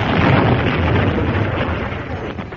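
Explosion from nearby shooting in a field, heard as a loud, broad rumbling roar that holds heavy for a couple of seconds and then slowly eases off.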